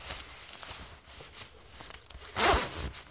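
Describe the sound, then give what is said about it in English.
A zipper is zipped up with a hook. A steady low rustle of handling leads into one loud, rasping zip burst near the end, followed by a softer tail of fabric noise. “rotate the hook and switch back, open it, you know, and grab onto whatever I want to do and zip it up”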